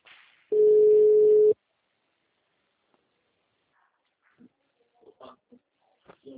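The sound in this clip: An outgoing phone call rings once with a single steady ringback tone lasting about a second. Near silence follows, then short faint fragments of voices.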